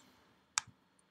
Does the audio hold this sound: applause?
no